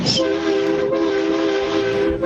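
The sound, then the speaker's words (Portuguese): A taxi driver's car horn blares during a honking tribute. It sounds as one loud, unbroken, steady-pitched blast lasting the whole stretch. “Vai, buzina aí.”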